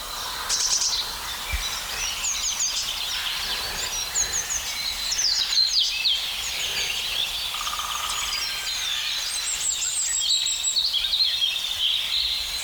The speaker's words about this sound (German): Dieses schöne plätschernde Rotkehlchen und diese rauen Rufe. Eigentlich doch Krähe, oder?